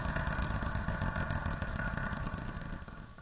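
A prize wheel spins with a rapid, continuous clattering of fine ticks, fairly faint and heard alone, gradually growing quieter toward the end.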